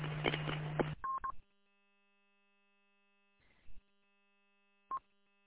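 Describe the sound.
Telephone dialing tones placed while back on the road: after a short burst of noise, a few brief electronic beeps sound alone, separated by long gaps of near silence.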